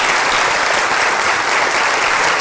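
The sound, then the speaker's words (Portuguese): An auditorium audience claps for a guest's entrance, loud, continuous applause that stays level from start to finish. “Por que que vocês não deram uma salva de palmas para a entrada dele aí?”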